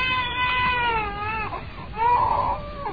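An infant crying loudly on waking, one of two small babies, in a high wailing cry with a long sustained wail followed by a louder, stronger cry near the end.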